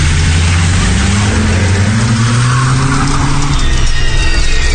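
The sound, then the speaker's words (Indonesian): A car accelerates as the driver steps on the gas, its engine droning loudly and steadily while the pitch climbs gradually, over continuous road noise. “Setelah berpamitan, aku langsung menancap gas untuk segera sampai rumah.”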